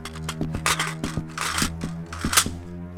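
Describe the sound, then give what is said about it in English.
Rapid gunfire in an audio drama, with many sharp, cracking shots fired in quick, irregular succession over a steady, droning musical background. “Fire again. Don't stop till we run out of lead.”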